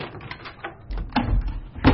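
A hotel suite door being opened, heard as a few soft clunks and low thuds that grow louder toward the end, with no talk.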